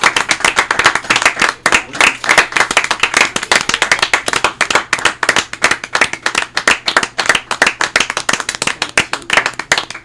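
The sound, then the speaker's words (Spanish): A crowd applauds warmly as a farewell tribute to a deceased person, with dense, loud clapping that continues steadily for the full length without fading. “este fuerte aplauso es para ti”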